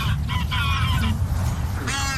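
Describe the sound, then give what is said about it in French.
Migrating geese honking at Longchamp racecourse in Paris. A run of nasal honks comes near the start and another burst near the end, over a loud, steady low rumble. “Étape notamment incontournable pour les oies en cours de migration. Pas de bol, leur lieu privilégié, c'est l'hippodrome de Longchamp.”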